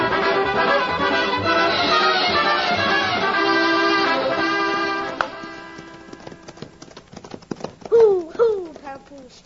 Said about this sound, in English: Best thing you do, grab horse and come with me.